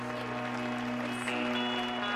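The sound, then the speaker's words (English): Applause from people at an event: a dense, continuous patter of clapping that holds steady throughout, with a low, even hum running underneath. “Nigel puts on a brave face and applauds her.”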